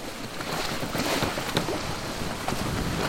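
A boat is rowed and sailed on water: a steady, windy rush of noise with a few faint knocks.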